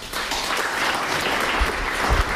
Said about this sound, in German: Darum bitte ich jetzt gleich um einen kräftigen Applaus für Jürgen Osterloh